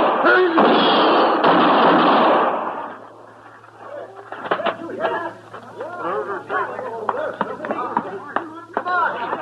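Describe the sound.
Gunshots ring out in a gunfight involving a marshal: a loud, harsh burst of gunfire with a long ringing tail opens the moment, then it drops away and men talk over quiet ambience.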